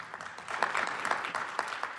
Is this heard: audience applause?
yes